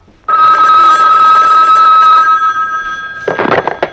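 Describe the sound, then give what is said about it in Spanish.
A telephone bell rings loudly in one long, continuous, steady burst that starts abruptly and then breaks off into brief, rougher noise at the end. “Un momento, yo contesto. Es que estoy esperando una llamada.”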